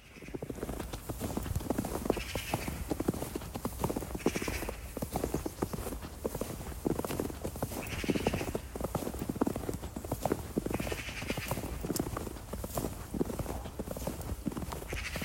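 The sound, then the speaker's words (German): Footsteps crunching through snow in a steady walking rhythm, many soft, gritty steps following one another at an even pace with no voices. “Jemand, der durch Schnee läuft.”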